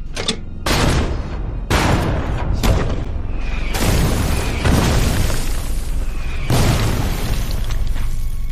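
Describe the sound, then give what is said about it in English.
American artillery pounds German defensive positions in a wartime barrage, a rapid series of heavy, overlapping booms and blasts with rumbling tails, loud and continuous, with no voices. “At 10:30, the American artillery unleashes a heavy barrage on the German defenders.”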